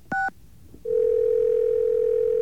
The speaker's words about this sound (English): Let me grab another dial tone here.